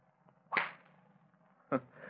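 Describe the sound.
A golf club sweeps through a sliced shot with two sharp, whip-like swishes about a second apart. Each swish is fairly faint and brief, against a quiet, low hum.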